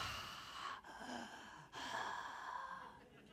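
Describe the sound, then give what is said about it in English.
A voice imitates heavy breathing heard inside a full face helmet: three long, rasping, hissing breaths in a row, each with a short break between them, steady and fairly loud. “All I could hear was my own breathing because of the face cover. And it was kind of like Darth Vader breathing, like,”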